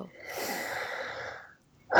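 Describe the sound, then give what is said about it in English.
A single long, deep breath of soft airy noise, swelling and then fading out, followed by a short silence and the sharp start of another sound at the very end. “Big breath.”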